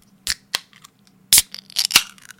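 Drink can being cracked open, a few sharp snaps and crinkling crackles, with one loud, broad burst near the middle followed by a cluster of smaller clicks.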